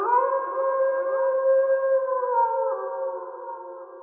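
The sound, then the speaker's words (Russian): A wolf howling outside a window gives a long, sustained, wavering cry with a few small drops in pitch, holding fairly loud throughout and easing slightly toward the end, with no voices. “Вторил волчий вой за окном.”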